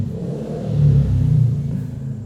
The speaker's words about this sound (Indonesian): Karena malam Minggu jadi kendaraan lumayan banyak.